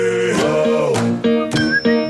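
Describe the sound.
A radio economics programme's newly redesigned signature jingle plays loud and alone: bright, chime-like ding-dong tones over sustained harmonic notes, with a few struck accents across its two seconds.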